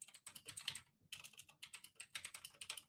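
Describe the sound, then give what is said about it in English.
Typing on a clacky computer keyboard: many quick, crisp key clacks in uneven bursts, faint overall, with a short pause before the typing resumes. “And I say thank you if you like my clacky keyboard right now. Or I'm sorry.”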